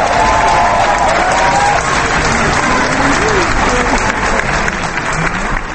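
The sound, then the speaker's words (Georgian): An audience applauds a Georgian dance performance set to Georgian melodies. The clapping is loud, dense and continuous, with voices briefly heard within the crowd. “თავიდან მაყურებელი თითქოს ვერ ჩაერთო ქართულ ჰანგებში, შემდეგ გამოფხიზლდა, ამას სიცხეც უწყობდა ხელს და ის ხანდახან ტაშით თუ ახვებოდა ცეკვას. ხანაც უბრალოდ ოვაციას მართავდა.”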